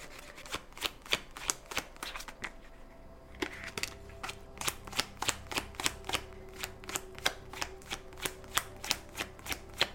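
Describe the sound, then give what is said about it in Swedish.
Tarot cards being drawn and handled, with a fast, steady run of crisp papery snaps and flicks that pauses briefly before resuming at a similar brisk pace. “men jag vill dra några mer kort till er”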